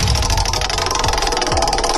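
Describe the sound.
A prize wheel spins with a rapid, even run of clicks that keeps a loud, steady rattle all the way through.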